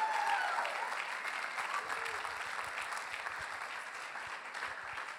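A church audience claps to welcome a pastor to the stage. The applause is steady and dense, fairly faint, and eases off slightly toward the end.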